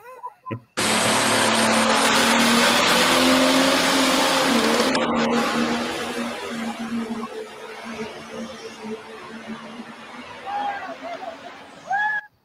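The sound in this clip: A race car roars past on a track at Louisville, a loud engine wash that starts abruptly, holds steady, then fades into a lower rumble with crowd babble and a few short squeals near the end.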